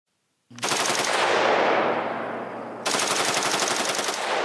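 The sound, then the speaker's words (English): Rapid gunfire from a rifle fitted with a bump stock: a dense, unbroken stream of loud shots lasting several seconds, with a short shift in the stream partway through and no talk. “Here's what footage of a bump stock looks like. This is what apparently the shooter in Vegas was using.”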